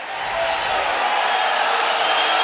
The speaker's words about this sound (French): Le public râle un petit peu sur le duel.